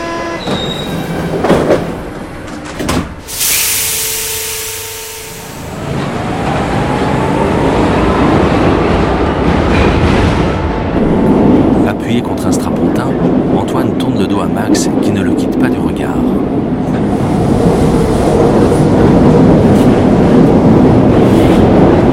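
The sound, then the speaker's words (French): A metro train carriage rumbles as a passenger boards, with a loud hissing burst near the start giving way to a steady, loud rolling roar and faint wheel squeals. “Il monte dans la rame.”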